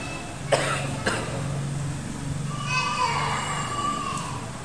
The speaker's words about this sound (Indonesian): Ini maaf, saya sudah satu minggu batuk belum sembuh dan belum minum obat.